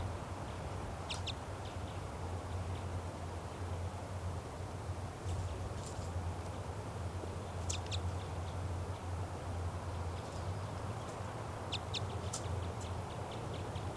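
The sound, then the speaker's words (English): A female bird calls from a tree beside its nest, giving a few short, thin, high chirps scattered over a steady low hum, faint throughout. “And the female flew off and she's perched in a tree nearby, now calling back and forth to 395.”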